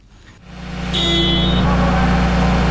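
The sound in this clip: A heavy vehicle engine starts during heavy vehicle maintenance competition training. It catches after a brief quiet moment, then builds into a loud, steady low rumble that holds to the end.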